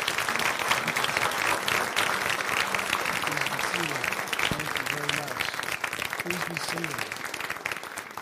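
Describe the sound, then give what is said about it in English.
Warm applause welcoming a pastor as an audience stands, a steady wash of clapping that carries on throughout, with voices heard over it. “I just want you to put your hands together and really give a warm welcome for Pastor Brad Maureen.”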